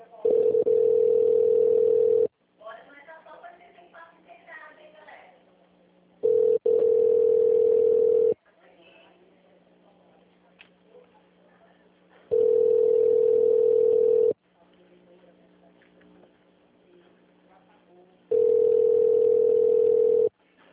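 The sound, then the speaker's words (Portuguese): A steady telephone line tone plays while a call is being transferred. Four loud, unchanging beeps of about two seconds each alternate with quieter gaps that carry faint, low sounds. “Transferindo a sua ligação. Por favor, aguarde.”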